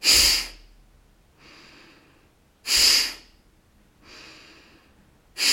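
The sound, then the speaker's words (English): Strong, forceful breaths pushed out to empty the abdomen of air, three sharp loud bursts at an even rhythm with softer, quieter breaths in between, alone without talk. “So you empty out your abdomen of air and maybe even of tension with this strong breath. And it kind of sounds like... So that's the exhale.”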